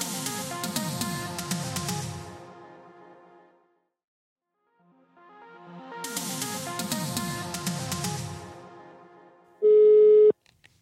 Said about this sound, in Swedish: Och vi ska slå honom en pling här och nu i podden.